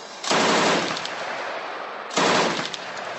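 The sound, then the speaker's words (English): A Russian combat robot firing its machine gun in two sustained, loud bursts of rapid gunfire, with a short, quieter gap between them. “if it needs to call in fire support to tackle the bad guys, it calls on this next robot”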